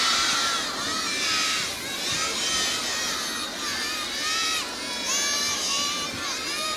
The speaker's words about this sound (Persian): یه بار دیگه برا تعجیل در فرج امام زمان بلند صلوات.